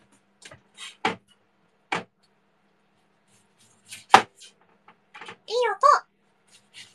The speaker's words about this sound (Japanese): さて、では玉ねぎを切ってまいりましょう。